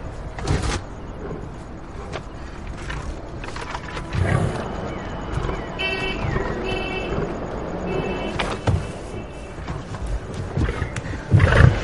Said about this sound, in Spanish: El león sube a la caja cubierta del coche.